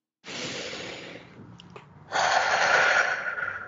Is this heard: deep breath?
yes